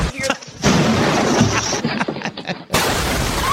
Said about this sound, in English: the volume of explosions that you're going to witness here with porch pirates is exactly how I'd like to see it happen.